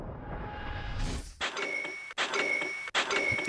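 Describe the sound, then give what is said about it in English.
A Shopify sale notification chime rings out bright and clear: a brief rising whoosh, then three repeated ding-like bursts with sustained ringing overtones and short gaps between them. “It does make me happy because that is the sound of another sale on Shopify”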